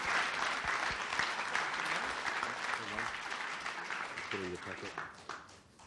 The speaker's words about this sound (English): I just want you to give him a nice warm hillside welcome.